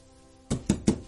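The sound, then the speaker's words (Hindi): Three firm knocks land on a door at an even pace, each a dull, solid thud with a short ring. “अरे दरवाजे पर कौन है, मैं देखती हूँ”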